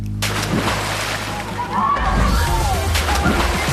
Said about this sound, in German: Für viele ist es tatsächlich dieser Sprung ins kalte Nass.